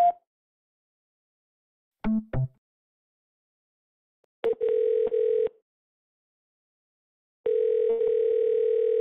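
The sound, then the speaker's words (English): Phone line voicemail tones come as separate electronic beeps amid silence: a short blip, then a couple of quick clicks, then a steady one-second tone, and finally a longer steady tone that runs to the end. “Please leave your voicemail after the tone.”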